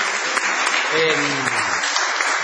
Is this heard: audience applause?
yes